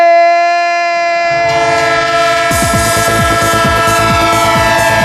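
A train horn sounds a loud, sustained multi-tone chord, then a rhythmic clickety-clack of rolling wheels on rails joins in beneath it. It is used as a sound effect to open a football segment, with no talking.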